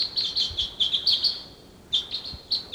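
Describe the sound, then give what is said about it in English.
Wild birds calling outdoors near decoys: many quick, high-pitched chirps in clustered bursts, with a short lull midway before the chirping resumes. No one talks. “There's some other wild birds around.”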